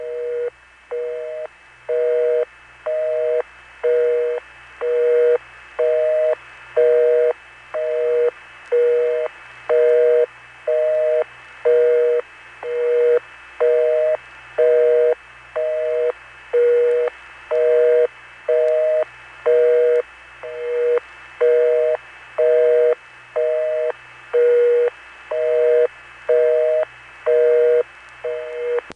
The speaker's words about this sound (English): You can hear an obvious beating effect on the busy signal. It seems that two sources of modern low tone are hooked up together, and that beating low tone is being turned off and on by the interrupter.